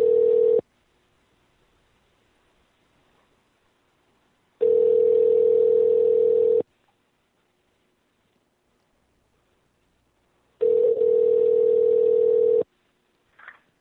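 Ringing of a telephone on an unanswered call: three long, steady ringback tones of equal pitch separated by long silences, the first one cut short.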